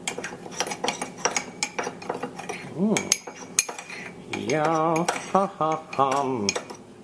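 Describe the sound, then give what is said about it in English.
Cocoa being stirred into a batter in a bowl, with a utensil scraping and clinking against the bowl in quick, irregular taps, fairly quiet, alongside some squeaky tones. “Now add 2 tablespoons of cocoa. And just give this a bit of a mix.”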